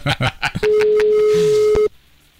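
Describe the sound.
A telephone ringing tone: one long, steady, even-pitched tone lasting a little over a second, heard under people talking and ending abruptly.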